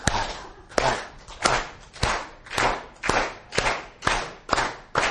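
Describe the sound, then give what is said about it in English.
Steady, rhythmic hand clapping as an audience is led in claps of moral support. Sharp, evenly spaced single claps keep a regular beat throughout, with no talk over them. “So you can do that by putting one hand up in the air like this. The other hand is out. And you go, clap, clap,”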